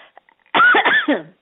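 Someone coughs after something went down the wrong way: a loud, harsh, voiced burst of coughs in quick succession, following a few faint small sounds.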